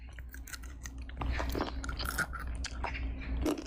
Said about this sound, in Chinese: 能吃到菠菜的味道， 我尝一下。